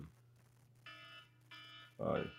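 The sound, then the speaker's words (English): An alarm clock ringing: two short bursts of bright electronic beeping with a brief gap between them, over a faint low hum, followed by a brief voice sound. “That's my alarm clock.”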